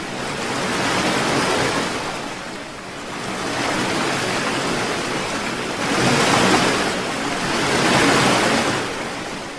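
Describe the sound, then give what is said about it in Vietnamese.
Ocean waves crash in a continuous broad roar that swells and recedes in several surges, with no voices. “Sóng lô xô ào đến trước mặt họ, sau lưng họ, chẳng khác nào đã dồn lại thành một con sóng lớn.”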